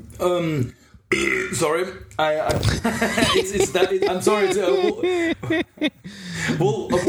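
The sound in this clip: A long, voiced burp stretched out and wavering in pitch like a wolf howl, broken by short chuckles and throat sounds.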